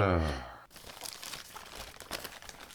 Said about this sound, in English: It's not the card I'm worried about. It's the gift. Oh, yes, let's open it up.